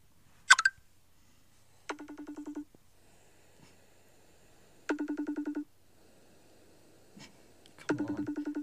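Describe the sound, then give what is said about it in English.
A phone call ringing tone resembling a FaceTime call sounds during a prank call: a short sharp click, then three pulsed ringing bursts separated by quiet gaps, with no talk. “Why is the noise like FaceTime?”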